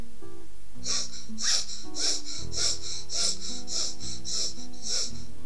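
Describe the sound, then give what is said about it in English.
Eight short, rapid in-and-out breaths from a breathing exercise, evenly spaced in a quick, steady rhythm, each a breathy puff over soft, sustained background music tones. “So practice B1, which is 8 times short in out breath. So let's go.”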